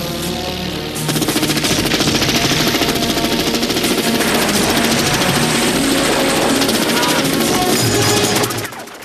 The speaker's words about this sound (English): A gunner peppers Kin's boat with bullets.